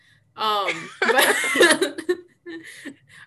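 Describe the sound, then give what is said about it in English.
A person clears their throat in a few rough, raspy bursts, with a voiced vocal sound just before and a short, quieter rasp at the end. “I need to clear my throat”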